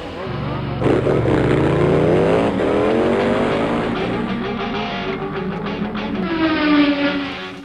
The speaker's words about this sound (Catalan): Anem a tancar la porta, posats els cinturons... Que va, motor!